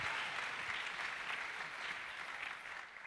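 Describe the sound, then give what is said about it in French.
A church audience applauds for themselves during a service: dense, sustained clapping from many hands fills the whole clip at an even, fairly faint level, with no distinct voices. “Est-ce que vous pouvez acclamer pour vous-même?”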